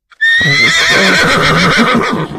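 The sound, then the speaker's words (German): Horse neighing, a single loud, high whinny that starts abruptly and holds with a shaky, trembling pitch for about two seconds before tapering off. “Ja, Pferde gibt's auch”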